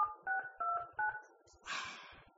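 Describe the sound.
Telephone keypad tones entering a conference-call access code: four evenly spaced, clear beeps of shifting pitch, followed by a brief, noisier burst.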